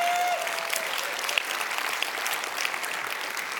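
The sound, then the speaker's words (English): A church audience applauding: dense, steady clapping sustained throughout, with a few sharper claps standing out from the wash. “So if you want to say praise God, clap, get Pentecostal for a second, go right ahead.”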